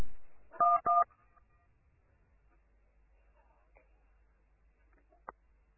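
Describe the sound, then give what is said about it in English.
Telephone keypad tones as the star key is pressed and a number dialed: two short, steady dual-pitched beeps in quick succession, then near silence with a faint click. “So once you hear a queue, press the star key directly and dial that number, okay?”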